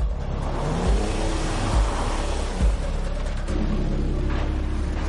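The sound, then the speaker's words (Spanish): A taxi reverses in a car park, its engine giving a steady low rumble broken by a few deeper surges throughout. “El taxi da marcha atrás.”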